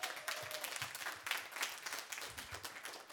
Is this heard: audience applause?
yes